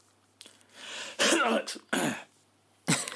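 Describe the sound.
A person clears their throat in several harsh, raspy bursts of uneven length, loud and close, with brief pauses between them.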